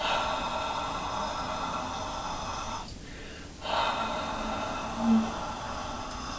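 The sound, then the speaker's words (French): Deliberate exhaling breaths during hands-on Yuki practice: slow, soft, airy exhalations come in long, even waves with a brief pause between them, all faint and unaccompanied by talk. “Je mets mes mains et je commence à faire le Yuki. Dans le Yuki, on concentre sur l'expiration. L'inspiration est normale, on ne pense pas.”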